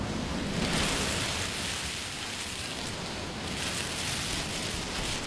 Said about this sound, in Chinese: 把海螺放在耳边，就能听到大海的声音。你听，